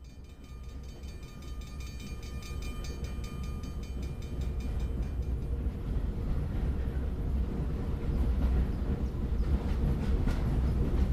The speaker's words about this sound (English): This is the sound of a train passing over the tracks and through the Salem Depot train station.